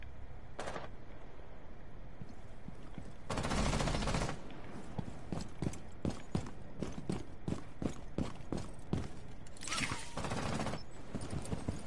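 Gunfire in a video game, with many sharp, loud shots fired in rapid bursts and volleys. The shots are spread across several seconds, and a few denser stretches of fire stand out.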